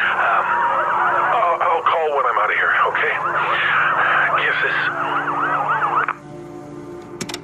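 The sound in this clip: Rescue crew emergency vehicle sirens after an earthquake, heard through a phone message, wail in loud wavering tones that rise and fall repeatedly for about six seconds and then cut off abruptly.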